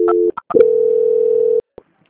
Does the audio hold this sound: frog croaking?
no

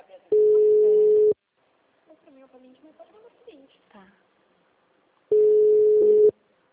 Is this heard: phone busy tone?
yes

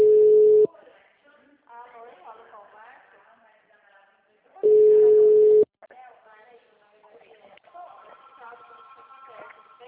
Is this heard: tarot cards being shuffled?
no

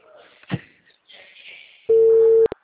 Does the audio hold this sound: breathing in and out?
no

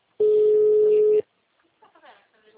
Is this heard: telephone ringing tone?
yes

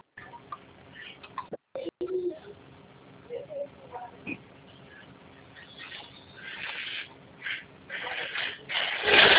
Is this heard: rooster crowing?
no

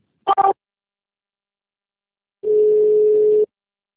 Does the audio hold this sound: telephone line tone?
yes

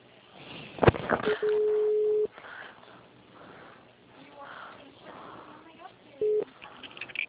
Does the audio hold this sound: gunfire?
no

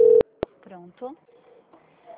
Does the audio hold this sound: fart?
no

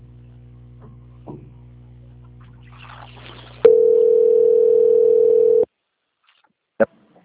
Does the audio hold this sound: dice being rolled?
no

